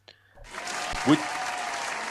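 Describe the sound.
Steady applause breaks out after a brief quiet moment and continues as dense, even clapping at a moderate level, with one slightly louder bump partway through.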